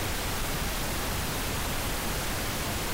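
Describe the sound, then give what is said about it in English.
Pink noise from a synthesizer: a steady, unbroken hiss across the whole spectrum, weighted toward a deeper rush, held at an even level for about three seconds. “To demonstrate, here's a bit of what's called pink noise, generated from a synth.”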